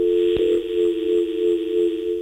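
A telephone line tone sounds on an incoming call-in line. It is a steady, buzzy, unbroken hum with a single sharp click near the start.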